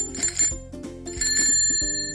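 Bicycle bell rung over and over during a bike ride, a rapid, continuous series of bright metallic rings that stay loud throughout.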